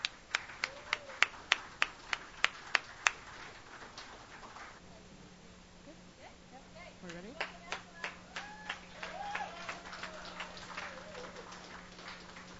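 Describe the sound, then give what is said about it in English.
Clapping to welcome a performer at a songwriters' stage night: a run of sharp, evenly spaced claps lasting about three seconds, followed by a voice speaking over a steady low hum. “So come on up here, and please put your hands together. Please welcome Angela to the stage.”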